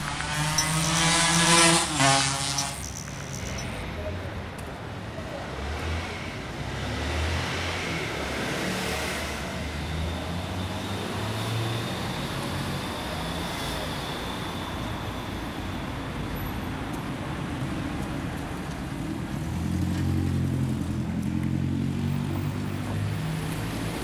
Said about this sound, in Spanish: Recién cuando dejan de verse los policías electrónicos, los semáforos, hago tronar los escapes, liberando gran parte de la potencia del motor.